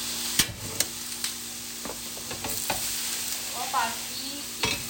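Onion and chicken breast stir-frying in a pan: a steady sizzle with a few sharp clicks and scrapes of stirring, no voices.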